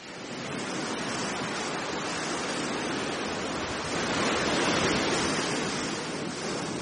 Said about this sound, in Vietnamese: Biển đêm lặng lẽ, chỉ có tiếng sóng xô ào ạt từng đợt lên bờ cát, tràn lên cả dĩa san hô chết mấp mé gốc cây phong ba già.